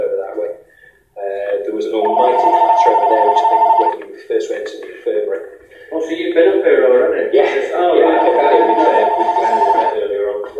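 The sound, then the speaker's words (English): An office phone that doubles as a house phone rings in two long bursts of a buzzy, steady tone, with people talking over and between the rings. “office phone is also the house phone”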